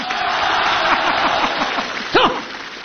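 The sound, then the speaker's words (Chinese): Audience applause rises at a comedy crosstalk stage show, a steady crackle of many clapping hands at moderate loudness, briefly peaking near the end before thinning out. “来，朋友们，我们掌声鼓励他一个人说一段对口相声，好不好？”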